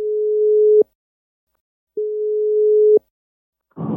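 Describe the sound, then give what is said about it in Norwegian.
Steady low telephone tones sound while calling someone, two even beeps each just under a second with a pause between, followed by a short burst of noise at the end. “vi prøvde jo akkurat å ringe deg”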